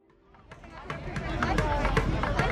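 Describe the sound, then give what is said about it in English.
Crowd noise outside a touring show's stop in Houston, Texas: a dense babble of many voices and scattered shuffling and footfalls, growing steadily louder over the short stretch. “This was the sound outside of the Gold Over America tour when it stopped in Houston, Texas.”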